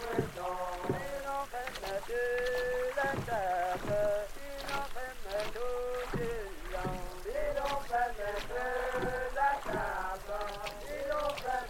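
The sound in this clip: Boat paddles stroke the water in strict unison, giving a steady rhythm of many regular splashes beneath a chorus of men's singing voices.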